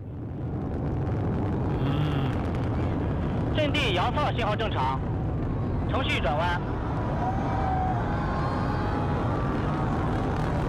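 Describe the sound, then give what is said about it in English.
Rocket launching into space, played back from a video: a heavy, steady roar that stays loud throughout, with a voice speaking over it in two short bursts. “There's a great video that you can hear right now of this rocket launching into space.”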